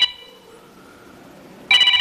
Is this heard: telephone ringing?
yes